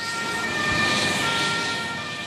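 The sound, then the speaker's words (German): An ambulance siren wails steadily as the rescue vehicle drives off from a stadium forecourt during a rescue exercise, a loud sustained tone over a low engine rumble that eases slightly toward the end. “Auf dem Platz vor der Allianz Arena fährt der nächste Rettungswagen ab”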